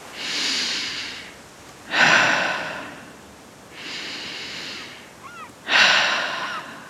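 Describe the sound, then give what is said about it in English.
Deep breaths drawn in through the nose during a guided relaxation exercise: four slow breathy rushes, alternating softer and louder, each lasting about a second or more, with no talking. “taking a nice deep cleansing breath in through the nose. Maybe letting out a sigh if that feels good. And starting with that continual conscious breath.”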